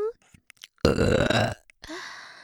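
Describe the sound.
A woman lets out a loud, drawn-out, guttural burp lasting under a second, framed by brief bits of her voice before and after.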